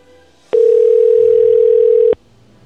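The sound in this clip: A telephone dial tone heard while placing a call: one loud, steady, mid-pitched tone lasting about a second and a half, alone between quiet stretches.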